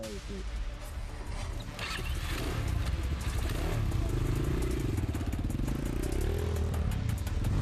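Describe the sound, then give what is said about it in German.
Vehicle engine roaring as it drives fast across a field, a loud, continuous rumble that swells and climbs in pitch through the second half. “Er fährt jetzt so schnell wie möglich zum Verwundeten.”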